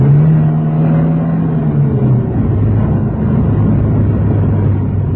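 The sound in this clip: Car engine of a police car in pursuit of another car through city streets: a loud, continuous low drone whose pitch dips slightly partway through, with no talk.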